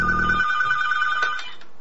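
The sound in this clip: Telephone ringing: a sustained electronic ring tone holds a steady, bright pitch with buzzy overtones, starting over a brief low hum, then cutting off abruptly, followed by quiet line noise. No one speaks.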